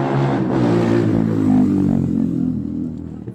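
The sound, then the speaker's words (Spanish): Car engines revving during a street race in a residential neighborhood: a loud, continuous roar with dense low harmonics that holds steady throughout and eases slightly near the end. “la otra imagen, vamos a escuchar donde hacen carrera.”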